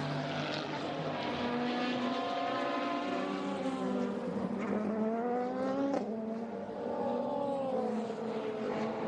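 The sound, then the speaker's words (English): Racing car engines during a practice session at a circuit give a continuous loud, high-revving whine whose pitch repeatedly rises and drops as the cars accelerate and shift. “going up through the first corner into the Dunlop chicane. It is practice. There's 5 minutes left. And a race has broken out.”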